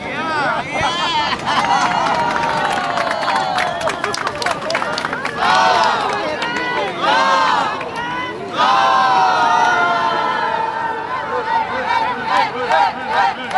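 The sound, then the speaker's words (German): Crowd of pilgrims from the Way of St. James arriving on the square before Santiago cathedral: a loud, continuous babble of many voices, with excited shouts and bursts of cheering rising above the steady hubbub throughout. “Und genau so klingt es, wenn Pilger vom Jakobsweg hier auf dem Platz vor der Kathedrale in Santiago ankommen.”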